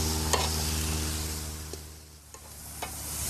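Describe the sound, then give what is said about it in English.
Onions and carrots sizzle on a grill at medium-high heat, a steady hiss with a low hum beneath and a few faint sharp pops. No voices. “With the veggies prepared, it was off to the grill. All right. So we're going to start with the onions. And the carrots.”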